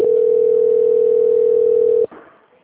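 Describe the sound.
Steady single-pitch telephone line tone heard while a call is transferred, holding loud and unbroken for about two seconds before cutting off abruptly into faint hiss.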